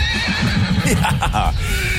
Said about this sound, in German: So, das sind Pferde.